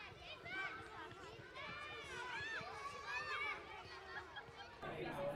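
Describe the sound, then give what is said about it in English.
Crowd chatter in a dive bar: a steady, dense babble of many overlapping voices at an even level throughout, with no single speaker standing out. “Marion, I hate this place. The floors are always sticky. It's like walking in a sweet factory. I thought we were going to the wine bar. Dive bars have strong and cheap drinks.”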